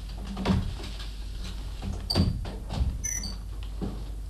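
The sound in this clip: Door of a home being handled, with a few dull clunks and clicks spread out over a faint steady hum. A brief high squeak comes near the end.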